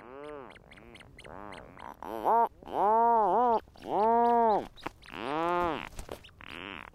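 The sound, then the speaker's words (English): Rhinoceros auklets and their chicks call at a wildlife refuge on an island in the Strait of Juan de Fuca, off the Pacific coast: a run of short groaning, harmonic calls, then several louder, drawn-out moaning notes. “These are several rhinoceros auklets with their chicks, recorded at Protection Island National Wildlife Refuge in the Strait of Juan de Fuca off the Pacific coast.”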